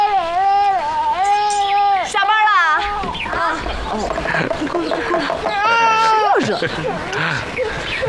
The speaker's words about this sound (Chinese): 哎呦，好孩子啊，不哭了。哦哦哦，不哭了，不哭了，不哭了。